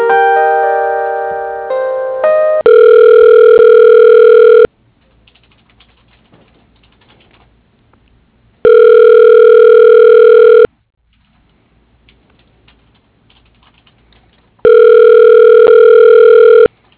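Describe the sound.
A telephone rings while a call is transferred to a voicemail line: a brief run of stepped tones, then three loud, steady two-second rings separated by long silent gaps.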